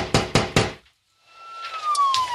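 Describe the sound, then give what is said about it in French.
Police knock on the door of a doctor's office: three sharp, evenly spaced knocks in quick succession, loud and alone, then a short silence before a quieter, hissing sound. “la police frappe à la porte du cabinet”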